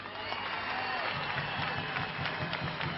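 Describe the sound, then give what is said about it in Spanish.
Applause and cheering from a political rally audience, dense and steady for the whole stretch, with soft rhythmic pulses running under the clapping. “Quiero pedirles, antes de empezar mi discurso, un inmenso aplauso para Osvaldo y para Juan,”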